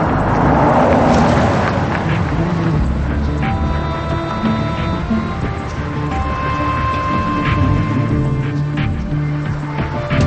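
Engine rumble of a van driving along, a steady low drone that stays even throughout with no distinct separate events.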